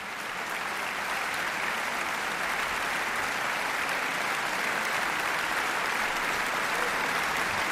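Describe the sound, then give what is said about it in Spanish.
A concert hall audience applauds after Brahms' Violin Concerto in D major, Op. 77, played by a Catalan orchestra with soloist and conductor, giving dense, even, sustained clapping that holds steady throughout. “Ha habido una gran complicidad entre orquesta, solista y director que se ha transmitido al público de la sala y por eso agradecen con esta cantidad de aplausos esa conexión.”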